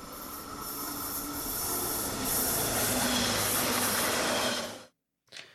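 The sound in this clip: A train departing from the track, played as a sound effect: a steady, loud rumble of rolling wheels with hiss and a thin high squeal runs at even strength, then cuts off abruptly, followed by one short final burst.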